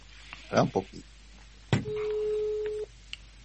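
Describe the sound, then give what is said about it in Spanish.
Telephone ringback tone while a call is being placed: one steady, level tone lasting about a second, preceded by brief bursts of talk. “No te voy a decir a quién estoy llamando. Si me atiende...”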